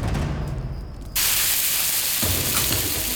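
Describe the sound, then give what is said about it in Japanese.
Meat sizzling as it grills, a dense, steady crackling hiss that suddenly grows louder early on and then holds at that level, with no voices over it. “これが肉を焼く音と匂い。”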